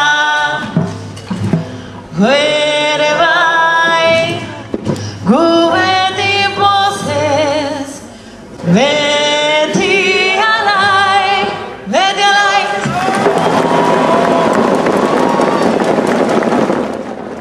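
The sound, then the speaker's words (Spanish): A cappella choral singing of the march to San Sebastián, sung in Basque, with several sustained, wavering phrases separated by brief breaths, closing on a denser, noisier passage. “esa es la marcha a San Sebastián, en el País Vasco, cerca de Bilbao, norte de España. Está cantado pues, prácticamente a capela.”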